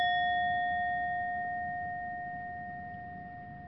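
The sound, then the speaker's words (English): A meditation bell rings with a clear, sustained tone and bright overtones that fade slowly and evenly, heard alone with no voices. “gently close our eyes with the ring of this bell.”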